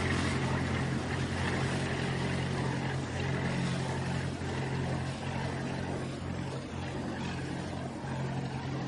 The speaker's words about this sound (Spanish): El sol ilumina el río bordeado por hierba amarillenta. Una barcaza pasa delante de Kate